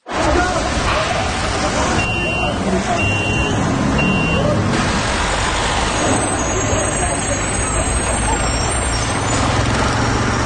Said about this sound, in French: Le bruit des rues, des villes, a beaucoup amplifié au cours des dernières années.